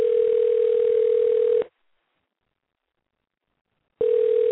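A telephone ringback tone plays while a call is being placed. A steady mid-pitched tone sounds twice, with a silence of over two seconds between the two bursts.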